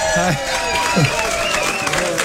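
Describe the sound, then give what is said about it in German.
An audience applauding and cheering as a performer arrives on stage, with a wash of clapping under lively, overlapping crowd voices. “Hallo, vielen Dank für den Applaus. Vielen Dank.”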